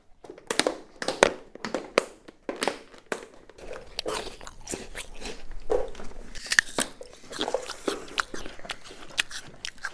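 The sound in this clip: People biting and chewing breakfast during a breakfast break, with many sharp, crunchy bites and chewing clicks in an irregular rhythm. There is faint background shuffling and no clear talk.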